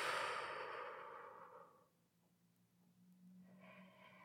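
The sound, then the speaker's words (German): A deep breath drawn in through the nose and released through the mouth: soft, airy rushes of breath, quiet and unhurried, with no talk. “Atme tief durch die Nase ein und lösen durch den Mund aus.”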